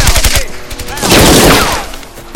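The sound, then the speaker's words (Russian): Submachine gun fire from Soviet PPSh guns in a war film battle scene: rapid short bursts of sharp, cracking shots, then a longer, dense, loud wash of gunfire. “раскладывает перед собой гранаты и три автомата ППШ. Автоматная очередь старшины оставляет нескольких немцев, лежащих на земле.”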